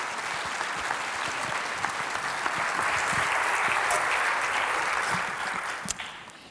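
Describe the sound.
Warm applause from a church audience welcoming a guest pastor to the platform at Willoughby Hills, a steady, dense wash of clapping that holds at an even level for several seconds with no voices over it.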